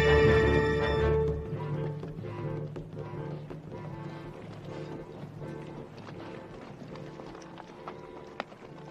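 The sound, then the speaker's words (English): Horses ridden by Sioux tribesmen approach a family wagon, with many quick hoofbeats in a steady galloping rhythm, moderately loud and continuous throughout. “Sioux tribesmen break off from the circle and ride to a chief. Bart's family huddle on their wagon as the Sioux approach.”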